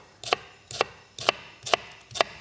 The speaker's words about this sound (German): Und dafür schneide ich einfach eine rote Zwiebel in Würfel.